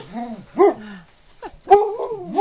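Lead dogs from a sled team of husky mixes give high, wavering whines that rise and fall in pitch, broken by a couple of sharper yips.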